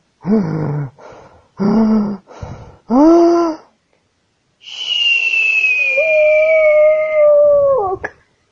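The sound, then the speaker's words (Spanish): A long, steady whistle, standing in for a young tyrannosaurus's attempted roar, follows a few short, throaty vocal bursts. The whistle holds for about three seconds with a slight downward drift, then cuts off abruptly. “eso no es un rugido, eso es un silbido, dijo Cera”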